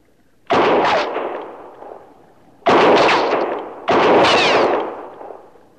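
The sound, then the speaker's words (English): Three loud gunshots fired one at a time, each a sharp, booming report that trails off in a long rolling decay, with a longer pause after the first shot than between the second and third. “Maybe my shots will get a little closer to you from time to time.”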